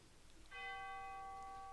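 A soft memorial bell chime is struck once at a remembrance ceremony after names are read. Its clear, ringing partials sustain evenly to the end without fading.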